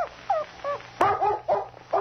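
A dog whimpers in high, wavering whines while being urged to follow a trail, with one sharp bark midway and more whining yips after it.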